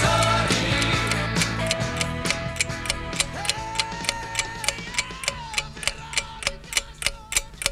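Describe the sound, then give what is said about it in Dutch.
A clock ticks in an even, steady rhythm, first beneath music that fades away and then alone as sharp, regular ticks. “Dit is het tikken van de klok die ons zojuist verteld heeft dat het 5 uur is geweest. En dat betekent het laatste uur van Radio Veronica. Elke tik die je hoort betekent dat het weer later is geworden.”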